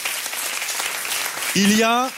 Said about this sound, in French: Alors quel que soit, si vous applaudissez, vous pouvez applaudir.